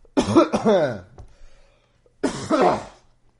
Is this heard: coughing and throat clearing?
yes